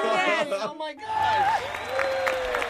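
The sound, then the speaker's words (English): Studio audience applause and cheering on a morning radio show, a dense noisy wash of clapping and crowd noise rising under and after a talking voice. “Oh, the studio audience is loving it, too.”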